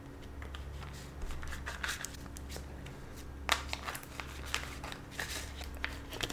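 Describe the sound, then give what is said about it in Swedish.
Shuffling a deck of cards to draw one: many crisp papery snaps and rustles in uneven bursts over a steady low hum. “Här har vi ett kort som stack upp. Ska vi se. Du har ett kort som faktiskt stack upp från kortleken.”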